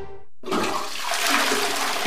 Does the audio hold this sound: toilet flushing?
yes